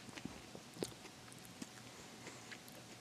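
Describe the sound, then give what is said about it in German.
Chewing as a person eats a snack, a faint run of soft, moist bites and mouth clicks with no talking, the crunches coming every half second or so. “Ich esse jetzt mal eins. Vielleicht muss ich kotzen.”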